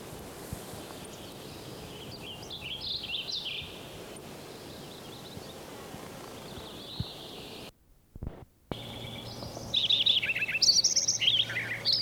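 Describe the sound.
Wilson's warbler and warbling vireo singing, their faint, high chirps and warbles rising over a steady hiss of background noise. The song grows busier toward the end after a brief dropout.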